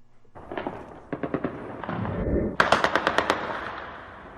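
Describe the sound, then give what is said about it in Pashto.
Celebratory gunfire from light and heavy weapons at night in Kabul after Afghanistan's cricket win over Zimbabwe: many sharp shots fired in several rapid bursts, the last burst louder and crisper, with no voices. “د تیرې شپې د ډزو په ژغونو پیلېږي”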